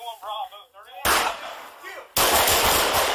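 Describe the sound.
Rapid police gunfire erupts inside a home as officers fire on a woman they mistook for an intruder: a shouting voice, then two loud, sustained bursts of overlapping shots.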